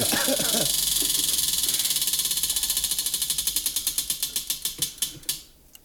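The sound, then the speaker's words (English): A game show prize wheel spins with rapid ratcheting clicks that gradually slow and spread apart until the wheel comes to rest. Voices are briefly heard at the start. “John, spin that wheel.”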